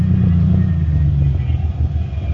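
A car's engine gives a steady, loud, low rumble throughout as the car pulls into a parking space.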